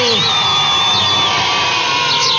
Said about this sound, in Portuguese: Palmas para todo mundo, palmas para quem acertou, para quem participou.